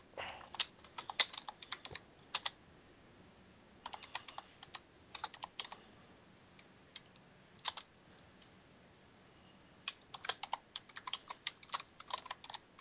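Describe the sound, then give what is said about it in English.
Typing on a computer keyboard: soft, irregular clusters of clicky keystrokes separated by brief pauses, with no talk. “And yet again, we have some more typing, hopefully.”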